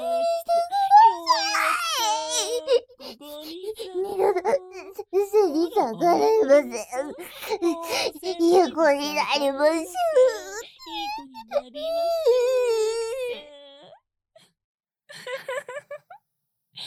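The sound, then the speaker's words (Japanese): A young child cries after being hurt: long stretches of high, wavering wails and sobbing cries that rise and fall in pitch, then a pause near the end followed by a few brief whimpers. “泣いちゃった、泣いちゃったね。”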